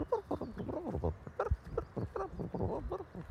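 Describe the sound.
Soft chattering calls of magpies keeping up a nuanced, cosy exchange while tending their young: a dense run of many quick, varied, bird-like notes, moderately loud and continuous, with no pauses.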